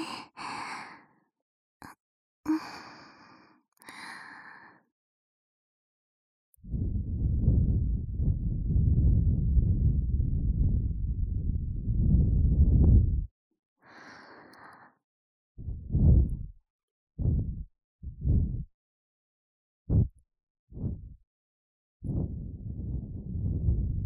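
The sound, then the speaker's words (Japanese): Gentle blowing into an ear after earwax removal: a few brief breathy sounds, then one long steady soft blow, followed by a series of short quiet puffs and a final longer breath. “大きいのはあらかた取れました。ちょっとだけふうふうしますね。”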